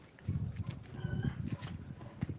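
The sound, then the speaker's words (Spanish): Hens clucking in a farmyard while a cat eats among them. Low, soft clucks and rustling run throughout, with one brief higher call near the middle. “El gato comiendo con las gallinas.”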